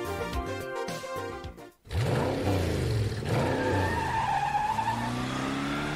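A car races at speed with its engine revving hard and its tires skidding and squealing in loud, curving screeches that swell and fade repeatedly.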